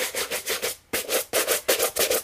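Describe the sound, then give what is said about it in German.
A shoe brush polishes smooth leather in quick, rhythmic rubbing strokes, a dry, bristly swish repeating many times, with a brief pause partway through. “Jetzt würde ich mal das Glattleder mit der Schuhbürste polieren. Okay, das ist eine Polierbürste.”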